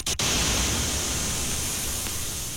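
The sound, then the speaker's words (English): White noise from a studio generator fills the whole clip as a dense, steady hiss spread evenly across all pitches, moderately loud and unbroken, with no voices or other sounds. “Most classic studios also have generators to create square waves and white noise.”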